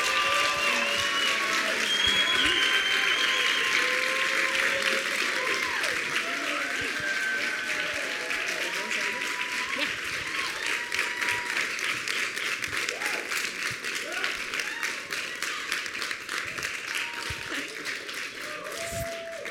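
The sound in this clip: An audience applauds to welcome two guest pastors from South Africa at a church, a dense, loud clapping that goes on steadily and eases slightly toward the end.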